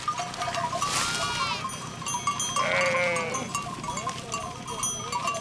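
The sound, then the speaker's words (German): Bleating from a large herd of livestock tended by a shepherd on farmland, with a few loud overlapping bleats rising out of a dense, continuous bustle of animal noise. “Wieder ein Schäfer, wieder eine große Herde.”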